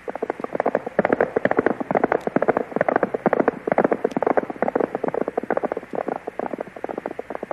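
Hooves of a mounted squad of horses galloping together: a dense, rapid drumming of many overlapping hoofbeats that stays loud and steady throughout, with no voices.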